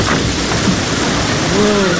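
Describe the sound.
Rain falls through a thunderstorm as a dense, steady hiss with low rumbling underneath, fairly loud and continuous; a faint tonal sound rises briefly near the end.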